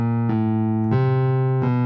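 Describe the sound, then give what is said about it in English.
Four sustained, rich musical notes spelling the B-A-C-H motif, played one after another with a steady, organ-like tone. Each note holds until the next begins, with no voices. “B-A-C-H sounds like this.”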